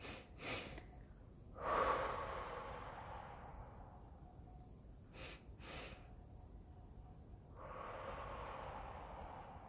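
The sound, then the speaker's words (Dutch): Quiet breathing in a relaxation exercise: a couple of soft, airy breaths, then two quick inhales followed by one long, drawn-out exhale. “twee keer in te ademen en dan één keer lang uitademen”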